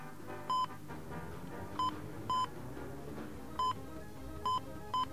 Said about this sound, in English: so what we do is we dial 011, and then the country code. In this case, it's England, so we'll dial 44. And then the city code.